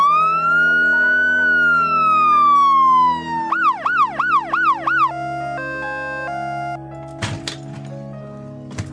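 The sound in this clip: A loud Red Crescent emergency ambulance siren opens with a long slow sweeping wail, then switches to a quick run of warbling rising-and-falling yelps. It ends with steady held tones broken by a few sharp cracks.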